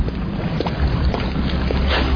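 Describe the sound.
A long, rumbling fart, steady and unbroken across the whole clip, with a low buzzing texture and no pauses.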